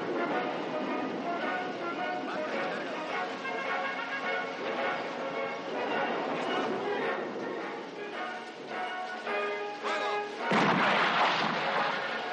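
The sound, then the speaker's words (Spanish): A Sherman tank at the head of a column fires a cannon shot into the air, a single broad, loud blast that bursts out near the end after a long stretch of music. “disparan un cañonazo al aire.”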